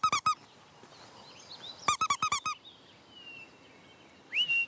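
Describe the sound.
A toy mouse squeaks in short, high bursts to lure an escaped little owl: three quick squeaks, then a run of about six, and a longer high squeal near the end.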